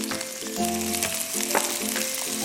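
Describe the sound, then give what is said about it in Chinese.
Marinated baby cuttlefish stir-frying in a wok give off a steady, dense sizzle that hisses evenly throughout, with no talk. “咱们再放入刚才腌制好的墨鱼仔，翻炒一下。然后呢，我们再放入盐适量”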